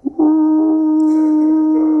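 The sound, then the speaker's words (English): A person's voice imitates a border collie howling at a train whistle: one long, loud, steady 'ooh' tone held at an even pitch for about two seconds. “He was a beautiful border collie that was just so sweet, and he would sing every time those trains come through.”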